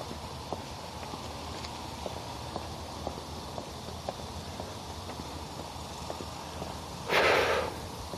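Footsteps on a morning hike fall in a steady, even rhythm of many soft steps over constant background noise, with a brief breathy burst near the end.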